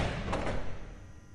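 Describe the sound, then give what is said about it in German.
A heavy polished steel door of a concrete chamber swings open with one broad, dull thud and rumble that slowly fades. “Öffnen! Sie kamen zum Zugang der Betonkammer, die eine polierte Stahltür versperrte.”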